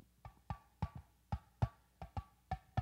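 Hand-held sound shape drum struck on its clear playing surface: a series of sharp, evenly paced hits, each a hollow thump with a brief ringing tone, fairly soft and heard alone.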